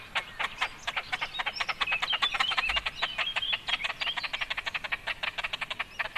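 Calls of a large bird's fluffy chick: a long series of short, raspy pulses in a rapid, steady rhythm, fairly loud, with higher chirps overlapping through the middle.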